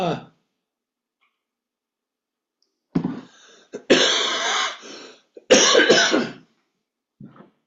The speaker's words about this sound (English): excuse me, but my cough has decided to act up.